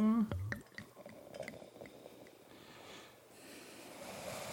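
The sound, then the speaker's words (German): Sparkling Crémant du Jura wine is poured into a glass, giving a quiet, continuous fizzing hiss with soft trickling and a few faint drips. “Das ist der Schaumwein, ne? Den habe ich schon mal aufgemacht über der Spüle, nach den Erfahrungen der letzten Jahre. Ja. Ich schütte ein.”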